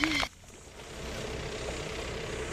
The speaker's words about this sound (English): Nehana Sargent is surveying the damage at his home while pumps clear water from warehouses nearby.